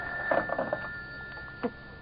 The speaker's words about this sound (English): Shall I get it for you? No, I'll get it. At least I'm safe on the phone.